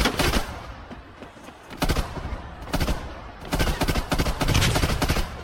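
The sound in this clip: Gunfire from a video game shooting match: many rapid, loud bursts of shots come in uneven clusters, with brief lulls between volleys.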